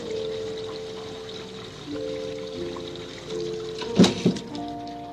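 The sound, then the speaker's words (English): Water splashing as a face is washed, heard as a quiet watery background over soft steady tones, then two short, sharper splashes close together near the end. “And wash her face.”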